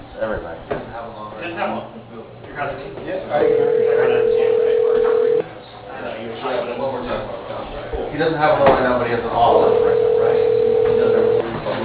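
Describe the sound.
A telephone line rings back while an office call is transferred to an extension on a ShoreTel phone system. Two long, steady tones of about two seconds each are separated by a pause, with people talking over and between them.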